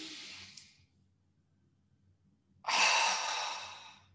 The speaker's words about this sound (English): So everyone, just take a big, big deep breath.